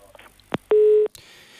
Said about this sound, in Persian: متاسفانه که شنونده منتظر نشدند و گوشی رو گذاشتند. اینقدر شنگامی که ما خواستیم با شنونده در ارتباط باشیم شنونده خب تلفن رو قطع کردند